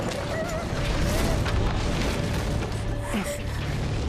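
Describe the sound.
A ceiling collapsing in a fire, heard as a dense, continuous roaring rumble that stays loud and steady throughout, with no clear separate crashes.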